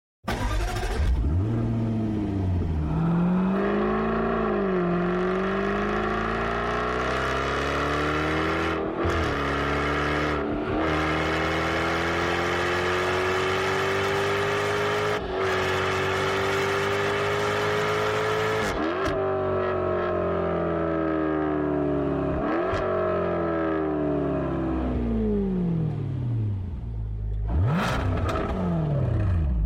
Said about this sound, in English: the feeling and the emotion of the F-Type as it accelerates and decelerates and blips and does all the things that drivers love